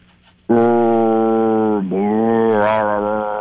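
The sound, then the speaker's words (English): A man's voice imitates the moan of a headless man: a loud, sustained, low droning groan with a brief dip in pitch partway through and a wavering lift near the end. “if you were like a guy that's moaning because he doesn't have a head, how would you do that? All right, moaning without a head.”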